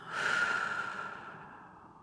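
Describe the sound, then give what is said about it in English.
One slow exhaled breath during a relaxation exercise, soft and airy. It swells quickly, then tapers gradually into quiet over about two seconds, alone with no talk. “And now inhale, grow taller. Exhale, release.”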